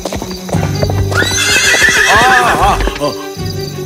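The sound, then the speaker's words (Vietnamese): A horse neighs loudly while its hooves clip-clop on a road, where it is being ridden. Rhythmic hoof clops lead in, then a long whinny rises and wavers over them before fading. “Anh không được cưỡi ngựa giữa đường như thế này đâu.”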